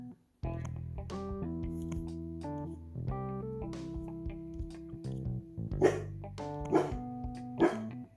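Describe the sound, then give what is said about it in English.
A dog barks three times in quick succession near the end, loud, short and punchy, after a stretch of sustained tonal sound. “That's my dog barking.”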